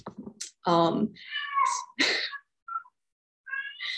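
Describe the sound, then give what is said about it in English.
A cat screams inside a house, letting out a few loud, harmonic yowls and wails of shifting pitch, separated by brief silences. “I have a screaming cat in my house.”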